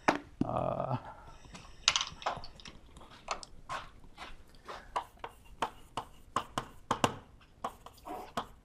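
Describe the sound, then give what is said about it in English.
Rapid irregular tapping as someone writes down a textbook reference during a cosmology lecture: many short, sharp clicks in uneven bursts, moderately quiet, with no talking. “Here, let me write it down.”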